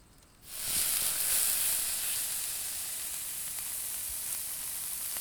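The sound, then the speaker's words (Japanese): Loud, steady sizzling of plenty of ordinary supermarket meat being grilled. The hiss bursts in abruptly after a brief quiet start and holds bright and even to the end, with no talk. “スーパーで買った普通のお肉だけどいっぱいあるから。じゃあ焼くぞ。いい音させるぞ。”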